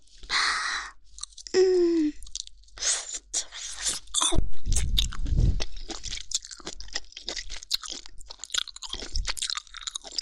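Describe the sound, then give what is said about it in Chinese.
Crisp bites and chewing of crunchy, crispy food, close and loud, with many sharp crunches coming in irregular bursts over steady chewing. “啊，咬下去爽爽的。还好刚才是咬了一口，没有咬完，接下来还能再吃两口呢”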